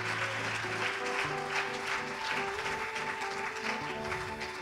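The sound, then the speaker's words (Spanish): An audience applauding in church: a continuous wash of clapping held at a steady level, with sustained low tones running underneath and no spoken words. “Dele un aplauso al Señor, hermano. Dije al Señor, no a mí, hermano.”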